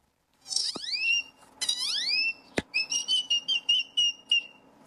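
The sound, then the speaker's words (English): Human imitation of a great-tailed grackle call: two bright, rising whistled sweeps, a sharp click, then a rapid run of short, high whistled notes, fairly loud and heard alone. “When I was 4 years old at the zoo, I started mimicking this great-toed grackle that was bothering my sister. And what does the great-toed grackle sound like?”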